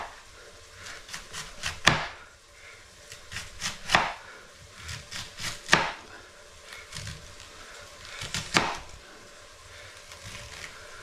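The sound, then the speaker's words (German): A knife slices food by hand into very thin slices, making crisp cutting taps in several bursts of rapid strokes separated by short pauses. The cuts are fairly quiet, with no talking. “Einfach dünne, sehr dünne Scheiben schneiden. Und dann funktioniert das.”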